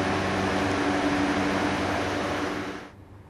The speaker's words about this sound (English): That's the sound of air conditioning. A constant hum, an absolute must-have in every high-rise building in Doha when the weather becomes unbearable.